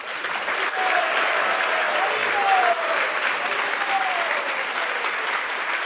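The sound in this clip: Audience applause after a presentation at a Hare Krishna gathering: steady, loud clapping from a crowd that holds evenly for several seconds.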